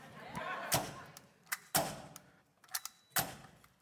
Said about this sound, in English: Pull out the pneumatic air gun, baby.